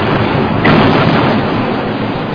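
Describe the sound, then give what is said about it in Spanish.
Cannon fire in a battle of the American War of Independence, from American guns captured from British forts: a dense, loud, continuous rumbling roar with a slight swell near the middle. “Los norteamericanos inician los combates. Tienen armas estupendas y tienen sobre todo certeros cañones.”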